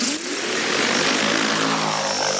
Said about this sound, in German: Statt mit schweren Landmaschinen das Feld zu beackern, fliegt Anfang August eine Drohne über die reife Sommergerste auf einem Versuchsfeld der Schwäbischen Alb.